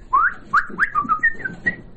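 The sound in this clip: A man whistles a quick melodic run of short, bright notes that slide up and down in pitch, fairly loud and heard alone.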